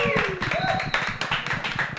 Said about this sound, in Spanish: ¡Fuerte el aplauso!